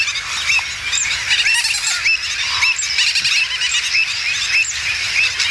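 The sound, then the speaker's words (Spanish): Loud, dense clamour of wetland birds: gull-billed terns, common terns, black-headed gulls, avocets, black-winged stilts and flamingos calling all at once. Shrill squeals, chirps and honking calls overlap continuously without a pause. “podemos escuchar ese trabalenguas formado por pagaza, pico negra, charrán, patí negro, común, gaveta, reidora, boceta, cigüeñola, flamenco, de todo.”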